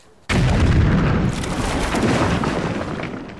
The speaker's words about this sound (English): Another Taliban bomb hits its target.